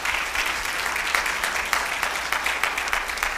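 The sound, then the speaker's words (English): Applause from a morning church service audience welcoming online worshippers: sustained, dense clapping that stays even in loudness from start to finish, with no pauses. “We want to say a big welcome to our online congregation. Let's give them a big hand.”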